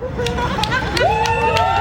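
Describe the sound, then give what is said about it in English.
A brief moment of crowd noise as people gather at Richmond City Hall to raise the rainbow flag for Pride Month. Mixed voices and chatter are heard, with a rising whoop near the middle. “That's the sound of Richmond Mayor Danny Avula and city council members raising the rainbow flag in honor of Pride Month.”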